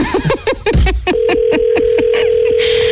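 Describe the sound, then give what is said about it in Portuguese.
A telephone rings on an outgoing call: one long, steady ringback tone of about a second and a half, with a voice talking and light regular clicks before it and a burst of noise after. “Está a chamar? Um toque.”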